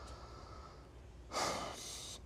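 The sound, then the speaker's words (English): Deep breath: a single airy, breathy inhalation, faint and without talking, swelling and then trailing off over under a second against low background noise. “I got to take a deep breath.”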